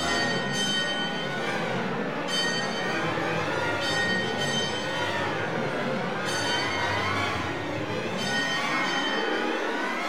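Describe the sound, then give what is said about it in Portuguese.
A mournful bell tolls without stopping as people flee in terror. It rings with slow, regular strokes about every two seconds, each ring sustaining over a dense, continuous wash of sound. “Ouve-se o som lúgubre de um sino que não para de tocar.”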